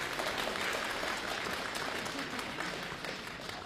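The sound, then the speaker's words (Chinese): Dense, steady audience applause greets a comedian taking the stage for a Shanghai-style monologue at a Beijing comedy show. The clapping stays loud and even throughout, with no speech over it. “想不到还真有人鼓掌啊”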